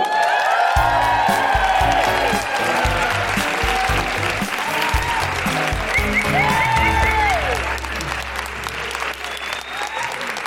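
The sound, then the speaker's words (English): A live-show audience claps and cheers to welcome a co-host, with dense, continuous applause and a few high whoops partway through. The clapping stays loud throughout and eases slightly toward the end. “Put your hands together and make incredible woohooing noises for the wonderful Jessica Foster Q.”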